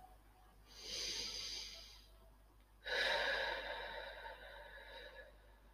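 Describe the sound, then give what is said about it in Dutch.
Two long, airy breaths from a guided meditation, each a steady hiss of air lasting a second or more; the second is louder and longer, with no talk. “Adem in.”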